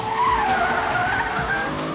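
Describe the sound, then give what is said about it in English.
Tires skid and squeal during a car chase in an action thriller film, a loud continuous screech with a wavering pitch over a roaring engine, with no voices. “That's the sound of one of the spectacular car chases in the new action thriller Ronin, starring Robert De Niro.”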